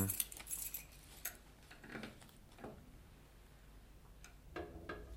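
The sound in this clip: Keys jangling as a key to a safe is brought out, a few faint bursts of light metallic clinks and rattles spread across the moment, with quiet gaps between them.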